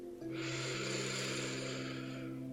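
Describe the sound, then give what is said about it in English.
A slow, deep breath in during a guided relaxation exercise, drawn out for about two seconds as a soft, airy rush over a quiet, steady sustained musical drone. “So let's take one more deep breath in.”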